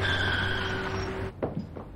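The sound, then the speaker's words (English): Tires squeal as a car swerves out of its lane: a sustained, high-pitched skid that cuts off abruptly after a second or so, followed by a few short, rougher bursts. “Annie drives by, sees Nicole enter the bakery and drives out of her lane.”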